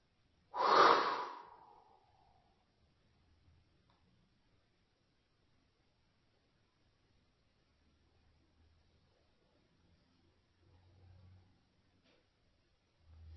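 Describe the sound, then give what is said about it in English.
A single breathy exhale through the mouth during a guided breathing exercise. The rushing whoosh fades out over about a second, followed by near silence with only faint low rumbles. “Hold it. And exhale through the mouth.”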